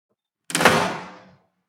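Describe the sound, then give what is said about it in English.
A house door closes with one solid thump, followed by a short rattling tail that fades out within about a second. No voices are heard. “then turns back into her house and closes the door”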